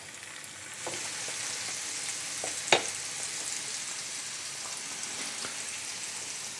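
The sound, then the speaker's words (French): Raw meat medallions sear in a frying pan after being set upright on their cut side, giving a steady, bright sizzle throughout with one sharp, louder pop near the middle. “Donc, on met la viande crue. Et donc, je dépose les médaillons debout sur la coupe, directement dans la poêle.”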